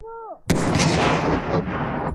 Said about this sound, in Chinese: 是定点爆破，强行开辟通路。 三、两、幺，起爆！